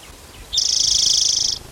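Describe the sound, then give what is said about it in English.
An orange-crowned warbler sings one high, rapid, even trill lasting about a second, clear over a faint low background hum. “Orange crown warbler in the back row.”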